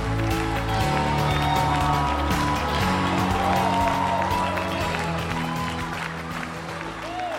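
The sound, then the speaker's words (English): A rousing ovation from the audience at a leadership conference in Lagos, Nigeria: dense, loud applause and cheering runs throughout, with steady music beneath it, fading slightly near the end. “Ladies and gentlemen, with a rousing ovation, please welcome Pastor Nike Adeyemi to the Excellence in Leadership Conference 2023.”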